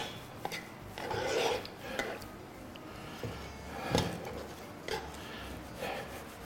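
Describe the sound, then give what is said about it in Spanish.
An onion is pressed and crushed in the pan while cooking, making rasping, rubbing scrapes with a few louder strokes over a steady background hiss. “Estoy como aplastando un poquito la cebolla, ¿eh? Es que me quemo. Aplastando un poquito así la cebolla.”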